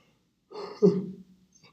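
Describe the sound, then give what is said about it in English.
A person yawning produces a single drawn-out voiced yawn of under a second, starting breathy and swelling into a stronger throaty middle before trailing off, alone against quiet. “I'm so sorry guys, I'm just yawning up a storm up over here”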